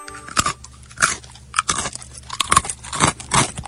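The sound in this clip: A hedgehog chews dried clotted cream, producing many irregular crunchy bites and crackles that come in uneven bursts, clear and fairly close, with no voices present.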